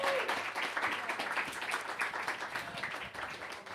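An audience applauds a poetry reader at a poetry dinner evening. The clapping is full and steady throughout, a dense patter that eases slightly toward the end.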